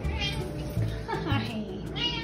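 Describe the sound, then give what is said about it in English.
A 14-year-old light gray tortoiseshell cat meows a few times in short, voice-like calls with shifting pitch, loud against a low background rumble. “This is Billy. She's a 14-year-old light gray tortie with wide green eyes and an adorable round face.”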